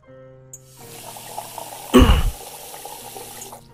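Filtered water is poured into a pot of meat while cooking, a brief splashing pour that swells loudly midway and quickly fades over a low steady hum.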